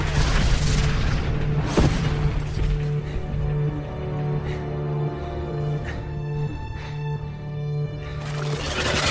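A deep boom from an airplane exploding in a video game: one sharp blast early on over a steady low rumble and hum, followed by a few fainter bursts.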